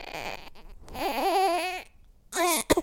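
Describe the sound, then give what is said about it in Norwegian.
A baby girl cries from hunger in a few wailing bursts, rising and falling in pitch, with a short gap of near silence before the last sharp outburst. “Nei, hun begynner, begynner, begynner å grine. Hun skal ha mat.”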